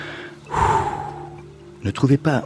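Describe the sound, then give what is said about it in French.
A deep breath is drawn in through the belly and let out through the mouth as a long, airy rush of breath, followed by a few short voiced sounds. “on inspire par le ventre, on expire par la bouche”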